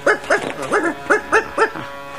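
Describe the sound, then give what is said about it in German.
A dog barks near oil tanks, giving six short, rhythmic woofs in quick succession. The barks are evenly spaced, moderately loud and alone, with a faint steady hum underneath. “War nur ein Hund.”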